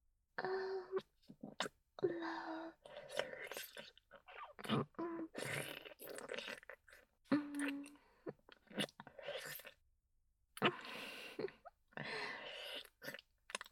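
A person chewing food at the start of a meal, quiet, irregular bursts of moist mouth sounds with short pauses, and a few brief hummed tones mixed in.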